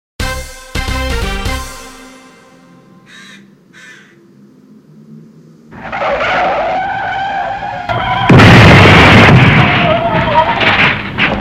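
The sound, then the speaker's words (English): A van crash staged as a loud sound effect: a few bright tonal notes ring out alone first, then roaring, skidding engine noise swells and breaks into a heavy, harsh crash that stays loud to the end. “Must you crash the van quite so loud?”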